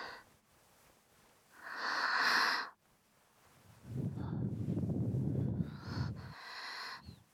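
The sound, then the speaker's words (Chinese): Close breathing right by the ears: a few soft, airy breaths, some hissy and higher, one longer and lower with a rough, breathy texture, all quiet with no talk. “你的耳朵现在能感受到我们的呼吸”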